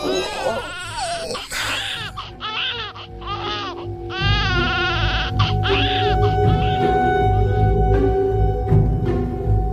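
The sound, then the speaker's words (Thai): A newborn baby cries loudly just after birth in a delivery room, with several high, wailing bursts in quick succession over a constant low rumble. “ทุกอย่างในห้องเงียบสนิทมีเพียงเสียงเด็กน้อยแผดร้องจ้าออกมา”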